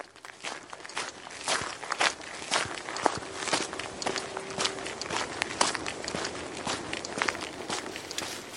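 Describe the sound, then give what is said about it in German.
Footsteps of people running along a forest path near a fjord, with fallen leaves underfoot: many quick, regular crunchy steps that keep an even rhythm and stay fairly soft. “Wir laufen weiter, immer noch durch den Wald.”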